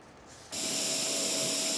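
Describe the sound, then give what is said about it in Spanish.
An industrial robot cutting moulds for large-scale artworks, a loud, steady, bright whirring hiss with a faint tone running through it, starting abruptly after a quieter moment and continuing without a break. “En este momento el robot está preprogramado para cortar moldes destinados a obras de arte de gran escala.”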